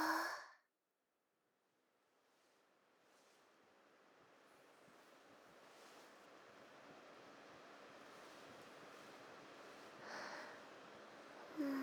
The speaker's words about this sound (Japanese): お兄さんの耳の中に、風を吹き込んであげます。